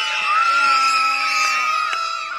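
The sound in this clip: Kids at summer camp, bobbing in the water near docks, shout their team battle cry together: a loud, sustained group yell with high, strained voices that holds for a couple of seconds and then tapers slightly.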